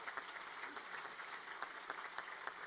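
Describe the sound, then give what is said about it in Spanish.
Crowd applause at the close of a Catholic religious celebration, following cheers for the saints and martyrs. Dense, steady clapping fills the whole stretch at an even level, with a few sharper claps standing out. “Damos un fuerte aplauso”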